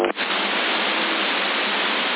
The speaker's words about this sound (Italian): io sento una portante Santiago 8 e qualcuno che sta accordando